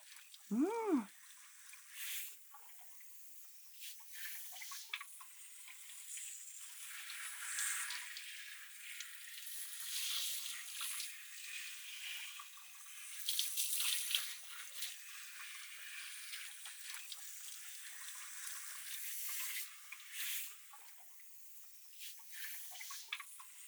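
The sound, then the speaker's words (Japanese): Shower water runs steadily while shampoo is rinsed from hair and fingers scrub at the roots, a soft continuous hiss with rustling, swelling textures and a few louder splashy bursts. “シャワーで流しながら髪の根元をわしゃわしゃっとして”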